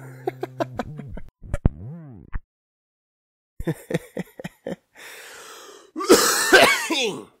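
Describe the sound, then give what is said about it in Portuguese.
Smoker's chronic cough from someone who has just lit a cigarette: harsh fits of coughing and throat clearing come in bursts separated by short pauses, ending with a louder, longer, rasping fit. “eu voltei a fumar e a minha tosse voltou, a minha tosse crônica que não passa nunca”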